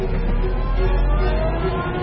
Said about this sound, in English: I get into my car. I turn the key. The car starts. I reverse.